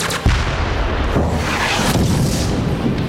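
Artillery and weapons fire in a war trailer: a loud, dense barrage of booms and blasts that rolls on with no pause from start to finish.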